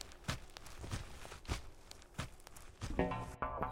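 Footsteps walk from sunlight into the shade of a forest, a steady series of soft, faint steps at an even walking pace.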